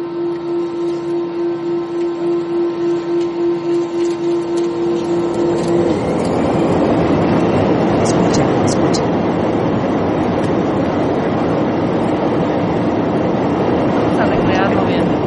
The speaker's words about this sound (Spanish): despegando el avión. Quítalo, quita el audio estás arriba del avión